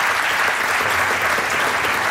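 An audience claps at an award ceremony as a trophy and prize are handed over. The continuous, even clapping is loud and unbroken for a couple of seconds.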